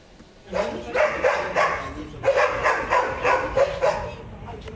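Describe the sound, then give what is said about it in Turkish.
Dogs bark repeatedly from a dog farm set among homes in a neighbourhood of Yıldırım, Bursa. The barking comes in many loud, rhythmic bursts that start after a brief quiet. “Bursa'nın Yıldırım ilçesindeki bir mahalle 3 aydır uykuyu unuttu. Nedeni mahalle ortasındaki köpek çiftliği.”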